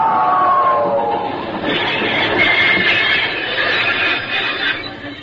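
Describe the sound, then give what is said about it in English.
Locomotive approaching: a steady rumbling rail clatter that holds at an even loudness and fades slightly at the end. “By the ghost of St. Patrick, is a locomotive.”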